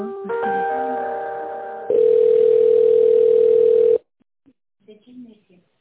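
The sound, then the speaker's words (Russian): A telephone ringing tone sounds while a call is put through: first a softer multi-toned signal, then a louder, steady single tone of about two seconds that cuts off abruptly, followed by a few faint, brief voice sounds. “Татьяна, а соедините, пожалуйста, с Алиной. Ага, сейчас соединю.”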